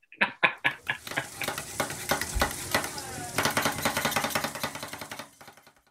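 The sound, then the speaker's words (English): Chicken being chopped on a halal cart griddle in New York City: many sharp, rapid clacks over steady sizzling, with a few loud strikes at the start before the chopping turns quicker and denser. “What's your favorite New York City sound? That chopping sound you hear at the halal cart when they're chopping up your chicken.”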